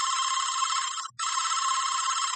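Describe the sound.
An unanswered telephone rings in two long, bright electronic bursts separated by a brief gap. The tone is steady and unchanging, with no voices.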